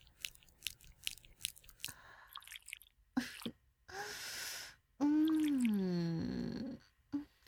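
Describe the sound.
Chewing and eating sounds, a rapid run of crisp, clicky bites and munches, followed by a few short squealing voiced sounds and a long wavering whine.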